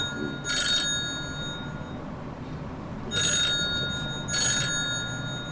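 A telephone rings for a call-back, giving three bright electronic trills: one, then a long gap, then two closer together, over a steady low hum.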